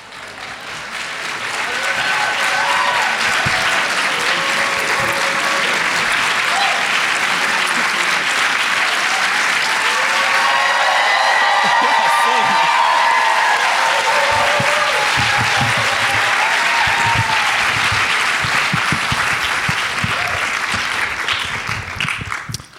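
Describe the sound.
Audience applause welcoming a guest at a Portland event: dense, sustained clapping from a crowd that stays loud and steady for more than twenty seconds before easing slightly at the end.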